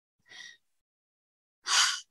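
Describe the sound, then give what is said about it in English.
Slow breaths drawn in during a guided relaxation: a short, faint airy intake, a silent gap, then a louder, fuller rush of breath, each soft and hissing, with no speech. “exhaling any tension you may be holding. Taking in a soothing breath.”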